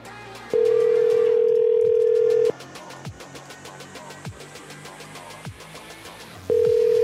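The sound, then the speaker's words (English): A landline telephone dial tone hums as a steady, loud, mid-pitched note for about two seconds, then cuts off. Faint clicks and low line noise follow before the same tone returns at the end. “No, that number doesn't work. Let's try the landline.”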